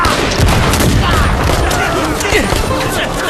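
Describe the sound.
Dense battle gunfire fills the whole stretch, a loud, continuous crackle of rifle shots and bursts with no pause, rattling steadily from start to finish.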